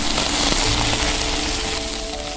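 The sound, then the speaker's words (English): Lava sizzling as it reaches the Earth's surface in Iceland, a loud, steady, dense hiss with a faint crackling texture that holds without a break throughout. “Iceland is full of unique sounds, some of them natural, like the sound of lava sizzling as it reaches the Earth's surface,”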